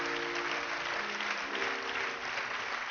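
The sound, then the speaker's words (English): A church audience claps to welcome the Holy Spirit during a service, dense and even applause sustained throughout. “Can we just clap and welcome the Holy Spirit into our midst?”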